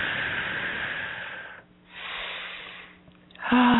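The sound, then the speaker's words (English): A slow, deep breath taken during a guided meditation: two long, airy, breathy swells separated by a short quiet gap, fairly loud and clear with no talking over them. “It's time. Nice deep breath.”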